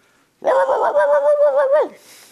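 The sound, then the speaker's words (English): A little poodle that ran out to a dirt road barks at a passing pit bull, giving one drawn-out, quavering yelp that wobbles in pitch and drops away at the end. “When it saw the pit bull, it jumped off the porch and ran out to the dirt road and began to bark at this pit bull.”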